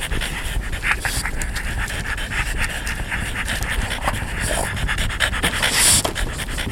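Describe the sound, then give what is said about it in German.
Dogs pant rapidly in a steady rhythm of short, breathy huffs, loud and continuous throughout, with no voices. “Die Hunde kicherten.”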